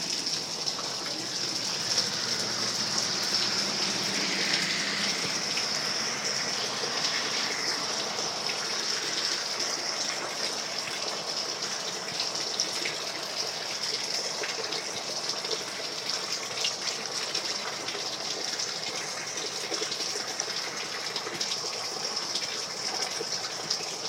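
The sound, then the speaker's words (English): Heavy rain pours by a road in a steady, dense hiss that never lets up. No voices are heard over it, and no single passing car stands out. “You can hear the cars going down the road, how much rain that's getting.”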